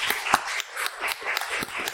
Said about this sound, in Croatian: Još jedan lijepi veliki pljesak za Ivanu.